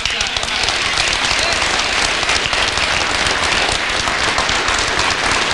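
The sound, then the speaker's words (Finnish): Big applause at a political party council meeting: dense, continuous clapping from a large crowd, a loud, even roar of many hands with no break across the whole stretch. “Puoluevaltuuston kokouksen yhteydessä Purra moitti etenkin SDP:n puheenjohtaja Antti Lindtmania saaden suuret aplodit.”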